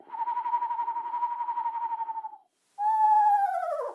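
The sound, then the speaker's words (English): A voice imitating a screech owl call: a long, wavering tremolo held at a steady pitch, then after a brief pause a louder whinnying call that slides downward in pitch, with no talk. “a smaller owl, like a screech owl, might go,”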